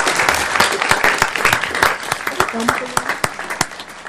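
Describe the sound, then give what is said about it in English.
An audience at a city council meeting applauds, at first a dense patter of many hands, then thinning into separate sharp claps toward the end, with voices faintly underneath. “Let's give them a hand.”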